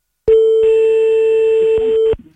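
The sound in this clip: An outgoing telephone call rings before someone picks up: a single long, steady ringback tone of about two seconds, loud and alone, stopping abruptly.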